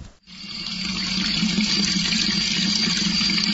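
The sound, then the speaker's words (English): Water flows steadily in the old lower part of a historic mountain village, near one of its fountains. After a brief quiet dip at the start, a loud, even, rushing splash sets in and holds constant to the end. “Well, here's the sound of water again, and we are now in the lower village.”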